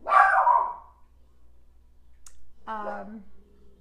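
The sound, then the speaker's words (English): A dog barks in the background during a meditation session: a loud burst of barking, a short pause with a faint click, then a shorter, whining bark. “deal with your barking dog in the background.”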